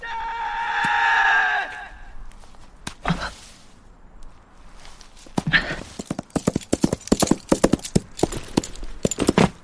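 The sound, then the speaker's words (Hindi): Hoofbeats of a horse ridden fast toward the scene, scattered thuds at first giving way to a dense, rapid clip-clop that grows louder and busier through the second half. “दूर से वीरू घोड़े पर तेजी से आ रहा है।”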